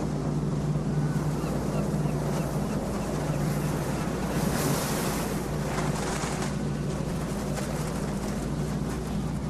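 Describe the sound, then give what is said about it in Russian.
A barge carrying a load of garbage floats on the water while waves wash around it. A steady, even rush of water and wind sits over a low engine hum that drones on unbroken throughout. “По воде плывет баржа, везущая мусор.”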